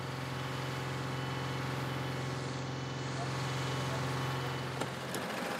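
Steady low engine drone of a heavy special vehicle, 13 to 14 tonnes, working on a soft sand beach, a continuous tonal hum that holds at an even, moderate level throughout.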